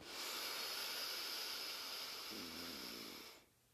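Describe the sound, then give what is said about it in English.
A long, forceful exhale during a breathing exercise at a home mini spa: a steady, breathy hiss that holds for about three and a half seconds, then cuts off. “Audible exhale.”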